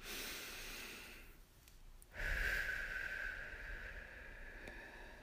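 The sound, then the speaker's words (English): A deep relaxation breath, drawn in through the nose and let out through the mouth: a long, soft, airy inhale, a short pause, then a louder, longer exhale with a faint whistling tone that slowly tapers off. “Let's do it right now. First deep breath.”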